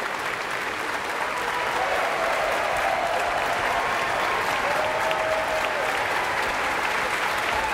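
Audience applause after an orchestra's performance of a Puccini opera aria: dense, steady clapping from a large crowd, sustained at an even loudness for about eight seconds without a break.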